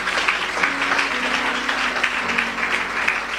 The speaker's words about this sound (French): Je voudrais que tu acclames le Seigneur pour sa vie.